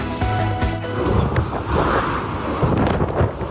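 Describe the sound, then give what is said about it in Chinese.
Howling wind tears through a Moscow snowstorm with heavy snowfall, a dense, roaring gust noise that surges and sustains without pause. “男子根本挡不住风雪交加，直接被狂风暴雪吹着走，想要逆风前行，竟是难如登天。”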